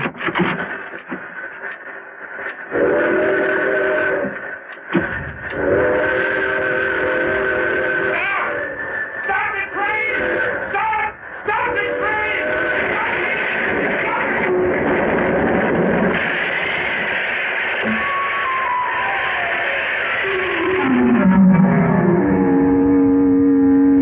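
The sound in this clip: A train, the 11:55, rumbles steadily while its whistle sounds in sustained harmonic blasts, with a falling whistle tone near the end, all loud and continuous.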